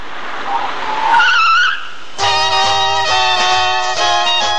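Screeching tires of a taxi pulling up in a radio drama effect: a wavering, rising squeal gives way to a steady, humming engine drone.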